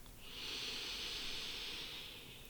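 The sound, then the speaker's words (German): A slow breath drawn in through the nose during a breathing exercise, a soft, airy hiss that rises, holds steady for about two seconds and tapers off. “Atme nochmal Energie durch die Nase ein”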